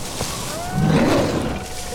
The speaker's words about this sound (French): j'entends un grognement. Pire, un rugissement.